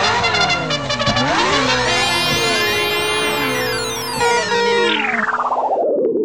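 A cartoon car drives off with a loud, wavering engine-like revving tone. Shifting harmonic sweeps carry through the sound, which ends in a final burst that trails away.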